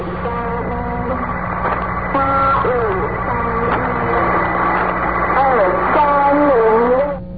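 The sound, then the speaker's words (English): A shortwave numbers station broadcast: a steady tonal voice reads out in even phrases over a constant low hum and radio noise, with another station faintly creeping in behind it. “This following station right here is what is known as a numbers station.”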